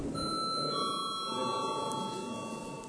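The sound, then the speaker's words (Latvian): Electronic bell rung to signal a parliamentary vote, a steady ringing tone with several sustained, layered pitches held over faint background hiss. “Lūdzu zvanu.”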